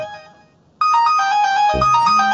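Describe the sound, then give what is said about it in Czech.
A phone ringtone goes off during a panel discussion with microphones in use: a loud, continuous electronic melody of bright, stepping tones that starts abruptly after near silence and keeps ringing to the end. “Tak někomu tam jde telefon do vysílání”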